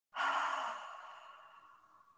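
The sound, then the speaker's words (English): A single deep breath out during a belly-breathing exercise, a soft airy rush that starts strongly and slowly fades over about two seconds. “you take a deep breath in through your nose, and just focus on seeing if you can feel your belly extend a little bit like a balloon. So breathe in, and then breathe out.”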